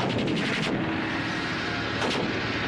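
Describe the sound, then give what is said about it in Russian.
Gunfire in a war film battle scene with tanks burning under smoke and enemy infantry falling, heard as a dense, continuous loud roar of shots and blasts with sharper bursts at the start and again around two seconds. “Выстрел Борзых.”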